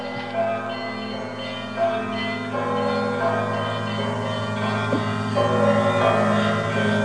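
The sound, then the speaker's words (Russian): Monastery church bells on Mount Athos ring out for an archbishop's arrival: a loud, continuous peal of overlapping bell tones, with fresh strikes sounding repeatedly over a sustained humming resonance throughout. “Звонят наши колокола монастырские по случаю приезда архиепископа Сергия Тернопольского.”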